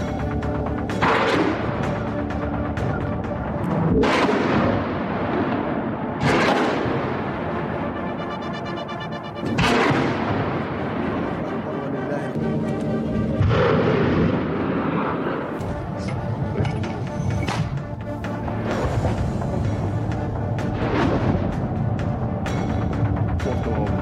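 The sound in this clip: Weapons fired toward an enemy gathering during military fighting. A loud, continuous roaring rumble runs throughout, broken by repeated sharp blasts every few seconds, with voices mixed into the din.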